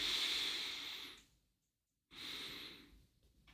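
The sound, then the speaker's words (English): Deep breaths: a soft, hissing breath fades out, followed by a short silence and then a second breath that swells and fades, faint and unhurried. “Long, deep out breath. Relaxing the whole nervous system, integrating. Deep inhale two times.”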